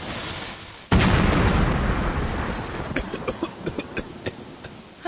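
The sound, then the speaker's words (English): A gas grill explodes as it is fired up for home-grilled hamburgers: a sudden loud boom after a quiet start, a long roaring rumble that slowly decays, then scattered sharp crackles and pops. “All right, time to cook me up some home-grilled hamburgers. Ingredients, check. Meat, check. All I have to do is fire up the grill.”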